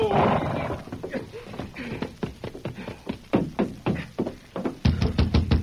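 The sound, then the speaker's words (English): Hoofbeats of a horse ridden up to a fort stockade at dawn ring out as many steady, sharp clops in a brisk rhythm, with a brief whinny and a heavier burst of stamping near the end. “he spurred his horse back to the fort and reached the stockade just as dawn was breaking. Once inside the stockade, he rode to the Major's quarters and dismounted.”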